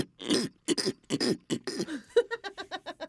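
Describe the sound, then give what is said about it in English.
A person's snorting throat-clearing, a throat scratch: several rough, raspy bursts, then a rapid series of short, pitched, pig-like grunting pulses, fairly loud and with no talk. “It's a throat scratch. It's a throat scratch. Do any? Where are my throat scratchers that do this?”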